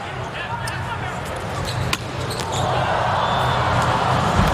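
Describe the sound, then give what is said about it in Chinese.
A volleyball serve in a men's match between the USA and Poland, one sharp hit of the ball against a constant crowd roar while commentators talk. “莱万斯基的发球，”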